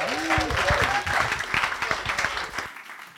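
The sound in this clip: Audience applause welcomes a guest speaker, a church leader, with dense, steady clapping that holds for nearly three seconds before fading out.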